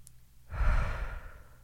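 One deep breath taken during a guided breathing exercise, a soft airy rush that swells after half a second and then slowly fades, with no talk over it.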